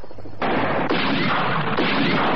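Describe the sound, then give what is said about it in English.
Gunfire opening up on command against a searchlight: a sudden dense roar of shots that starts abruptly and surges again a couple of times, loud and continuous, with no voices. “When I say go, start firing. Anne, you run for cover. Ready? Ready. Go.”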